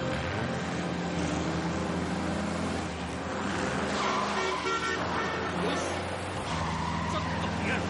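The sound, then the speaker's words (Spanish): Continuous car engine and road noise as a car drives fast along a lonely, narrow road while another car overtakes it recklessly; a loud, steady, dense rumble fills the whole stretch without clear breaks. “el doctor Armstrong conduce un coche por una solitaria y estrecha carretera. Al momento, el joven Tony le adelanta de forma temeraria, obligándole a salir de la vía”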